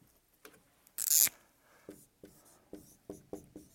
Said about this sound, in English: Now, let me just write some words up here.